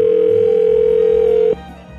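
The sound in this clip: A telephone line hums with a loud, steady, unbroken dial tone for about a second and a half while a call is placed to a phone dealer, then cuts off abruptly into low hiss.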